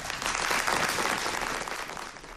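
Staged applause at a White House Rose Garden event with President Obama: dense, even clapping holds steady for about two seconds, then eases slightly at the end.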